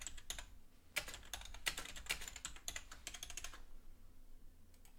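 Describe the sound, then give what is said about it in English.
Rapid typing on a computer keyboard: a dense run of clicking keystrokes for a few seconds, then a quieter stretch with only faint background hum. “Let's ask the chat. If I can type, let's see.”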